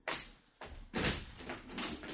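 A door is opened in an Egyptian radio drama, giving a few faint clattering bursts of the latch and door.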